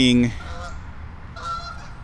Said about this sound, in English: I'm seeing geese flying overhead. Honkers.